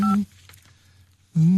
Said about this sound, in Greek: Να πάρω το τηλεφωνική γραμμή για τη νέα γρήπη, το 1135, για πάρε μου.